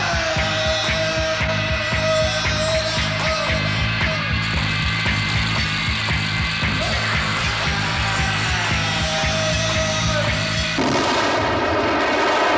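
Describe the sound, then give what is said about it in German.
A gunshot and explosion destroying a room, heard as a dense, unbroken, loud barrage of blasts and crackling that fills the whole stretch. Its texture shifts abruptly near the end. “Das Zimmer wird durch eine Explosion zerstört.”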